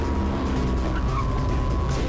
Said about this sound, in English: the car accelerates after him